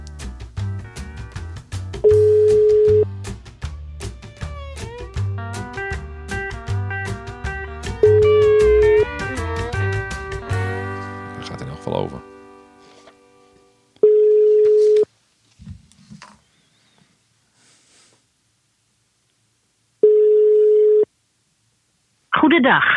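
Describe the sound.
Telephone ringback tone while calling someone who does not answer: a steady low tone in about one-second bursts repeating every few seconds, at first under other sound and voices, later alone between silences.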